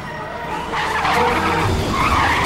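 An ambulance speeds off from a hospital car park with its tires squealing: a loud, sustained screech and engine roar that swells after the first moment and holds to the end.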